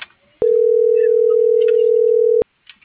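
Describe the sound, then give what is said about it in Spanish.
Ringback tone of a telephone call that goes unanswered: one steady, loud, mid-pitched tone lasting about two seconds, with faint background sounds before and after. “No, está marcando y no me contesta.”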